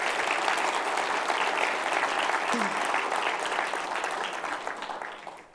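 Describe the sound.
Church audience applauding to acclaim during a service, a thick, continuous wash of many hands clapping that stays loud and even before easing slightly near the end.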